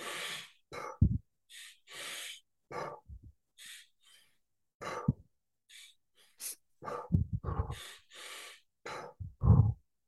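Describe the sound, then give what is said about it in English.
Deep, deliberate breathing from a breathing exercise for moments of overwhelm: inhales that fill the lungs and relaxed exhales, heard as a series of loud, airy bursts separated by short pauses, with no talking. “So the first inhale is about 70% full. The last inhale is filling the rest to the very brim. And then you just let it out nice and relaxed.”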